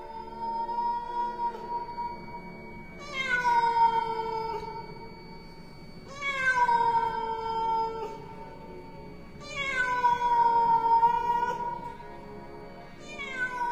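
Eerie, drawn-out meowing from a big black cat in the dead of night: long wavering wails repeat every few seconds over a low background hum, with the last cry cut short.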